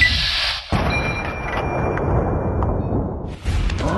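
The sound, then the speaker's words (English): Sneak attack gunshots in a video game: two heavy, booming shots with rumbling tails, spaced a few seconds apart. Thin high ringing tones sound alongside them. “I can't get a headshot, but I've got three sneaking attack shots to his torso may be enough. So let me go for that.”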